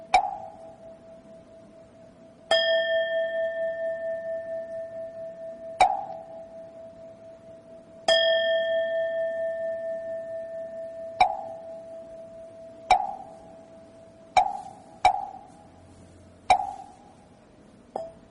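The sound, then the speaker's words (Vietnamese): A Buddhist temple bell and a wooden fish struck in turn, giving a slow series of separate strikes. Some ring out with a long, fading tone and others are shorter knocks, with quiet gaps between them. “dứt ba tiếng mõ rồi bên này cũng khoan thai đáp lại một tiếng chuông, rồi để cho tiếng chuông nó khoan thai rồi bên này đáp tiếng mõ.”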